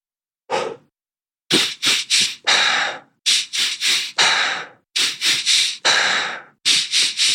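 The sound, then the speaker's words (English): Fast breathwork breathing opens with a lone breath. It then settles into a brisk, repeating cycle of two quick, sharp nose inhales and one longer, forceful mouth exhale. Three full cycles run in a steady rhythm before a fourth begins, with no talking. “So in, out, nose, nose, mouth. It goes that quickly, and you just need to repeat that over and over again”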